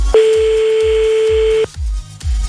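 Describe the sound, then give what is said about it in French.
A telephone call is dialed: one steady, loud tone holds for about a second and a half, then a couple of shorter tones follow, all over a pulsing low thump of background music with no voices. “On fait le premier appel, dès que t'entends plus la musique en dessous de toi, tu dis allô”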